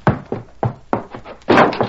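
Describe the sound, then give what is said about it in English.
A door bursts open at a house in a western drama: several heavy thuds in quick succession, then a louder, broader crashing burst. “He raced up to Watson's house, leaped to the ground, and burst through the door.”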